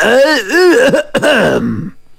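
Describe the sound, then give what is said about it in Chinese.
A deliberate, exaggerated throat-clearing cough voiced by a storyteller: a loud, drawn-out, wavering vocal rasp in two bursts split by a brief break, standing alone. “杨国忠心领神会，故意咳嗽一声，”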